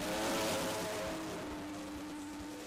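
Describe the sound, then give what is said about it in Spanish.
The engine of the Williams FW47 Formula 1 racing car, running at its launch at Silverstone. It gives a steady, droning roar that is strongest at the start and eases slightly, heard alone and fairly faint. “esta mañana en Silverstone, ha presentado su nuevo coche el equipo Williams, el FW47. Suena así.”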